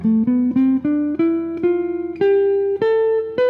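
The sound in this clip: An F Lydian scale, the C major scale started and ended on its fourth degree, played on a pitched instrument as a steadily ascending run of clear, separately struck notes with bright overtones, one note pulsing with a tremolo partway through.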